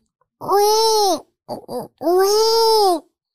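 Baby-crying sound effect: two long, loud wailing cries separated by a couple of short, choppy sobs, heard alone with no talking.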